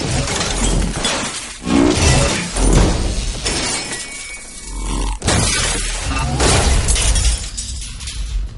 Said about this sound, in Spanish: destroza un panel de monitores con una espada láser